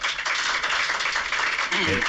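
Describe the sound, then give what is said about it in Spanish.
Applause from journalists in the Westfalen stadium press room after the Deportivo coach finishes his speech: dense, steady clapping throughout, with a voice heard over it. “Eran los aplausos de todos los compañeros de la prensa y no solo de los que fuimos desde aquí, sino también de los ingleses.”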